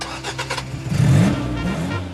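A car engine starting: a few rhythmic starter-cranking pulses, then the engine catches with a louder, rough surge and settles into a steady low running drone.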